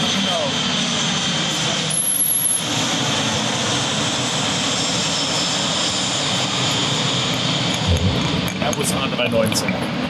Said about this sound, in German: Und klassisch zum P1 haben wir jetzt natürlich auch den Flieger, der im Anflug ist.